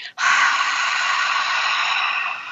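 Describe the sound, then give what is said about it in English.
A forceful "ha" breath exhale as used in Pilates, voiced as one long, breathy rush of air. It holds steady and fairly loud for over two seconds, then thins out at the end. “So what I do is I tell people to do a ha breath, which comes from some more of like the Pilates side of things, which sounds like this.”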